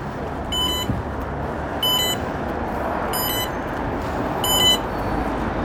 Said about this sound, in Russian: Над дверью звучит звуковой маяк.